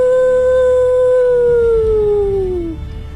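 A wolf howl used as a sound effect for wolves attacking a village: one long, loud, steady tone that slides lower toward the end before cutting off, leaving low rumbling noise underneath.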